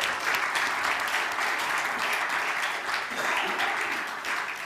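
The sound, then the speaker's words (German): Applause from a church audience, a dense, steady wash of many hands clapping that runs without a break from start to finish at an even, fairly loud level. “du kannst wieder runtergehen und gib mir einen Applaus”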